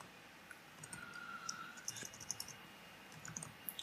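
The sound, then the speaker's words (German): Computer keyboard typing while entering flight departure and destination airports into an online CO2 calculator: many faint, irregular soft clicks with no voices. “Startflughafen Berlin tippe ich mal ein. Zielflughafen Los Angeles.”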